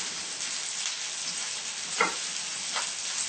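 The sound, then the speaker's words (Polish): Bean cutlets frying in a pan, a steady, soft hiss of sizzling oil that continues throughout, broken by two brief sharper crackles. “Jak się usmażą, będzie druga porcja włożona. Usmażone kotlety z fasoli przekładamy na talerz”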